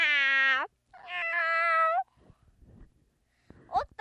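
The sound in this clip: A cat meows in two long, drawn-out, harmonically rich calls. Soft scuffling noises and a brief, higher-pitched call follow near the end.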